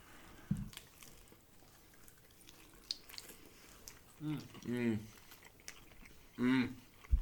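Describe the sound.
Faint chewing of dry-rubbed chicken wings with Cajun sauce: soft, irregular crunching and wet mouth noises, with a few short voiced hums in between.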